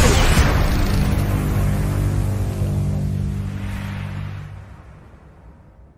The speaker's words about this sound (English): Sorry, I knocked off my camera and now it's all screwed up.